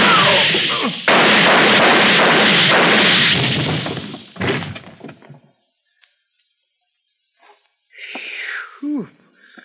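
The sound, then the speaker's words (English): Muffled gunshots from a gun held up close to keep the noise down: heavy booming bursts with a long rough rumbling tail, then a second dull blast and quieter scattered sounds after a pause. “Put your gun up close so it don't make no noise. Go ahead, Willie.”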